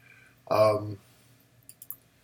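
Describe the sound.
Light, sharp computer mouse clicks, about three in quick succession, fairly soft, following a short spoken word.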